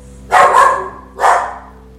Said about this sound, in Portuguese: os cachorrinhos latindo aqui